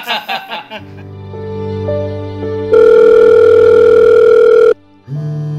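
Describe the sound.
A telephone ring is cut off halfway as the call drops. A few faint tones lead into a loud, steady electronic tone that stops abruptly, then a short silence and another lower tone.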